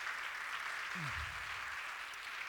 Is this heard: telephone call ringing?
no